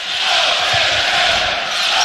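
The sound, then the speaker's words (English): A basketball crowd chanting Go Big Red echoes off the arena walls in Oklahoma City, a loud, dense roar of many voices that holds steady throughout. “Go Big Red, just echoing off the walls here in Oklahoma City.”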